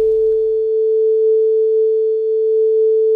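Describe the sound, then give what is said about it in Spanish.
A standard concert A tuning reference tone holds pure and loud at an unchanging pitch for the whole clip, with a faint low rumble under its opening moments. “Hoy ese tono patrón es de 440 Hz.”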